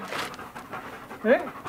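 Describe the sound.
A dog kept at a house with plenty of room out front pants in quick, breathy bursts, with a brief tonal whine rising out of the panting near the end.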